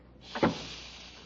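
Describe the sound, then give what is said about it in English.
A door being closed, a short sliding swish that ends in a soft thump, followed by a faint steady background hum. “Turn on the light and I'll close the door.”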